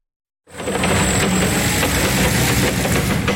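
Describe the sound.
A forklift engine runs steadily while hauling crates of freshly picked apples from an orchard to a storage hall. After a brief silence it starts as a loud, continuous, even drone with no voices.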